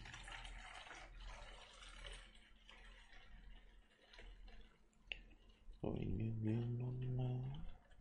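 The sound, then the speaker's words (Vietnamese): Water is poured into a glass. A steady gurgling pour lasts about two seconds near the end, its tone rising slightly as the glass fills, over a faint background hiss. “Đợi mình chút, mình rót chút nước nữa.”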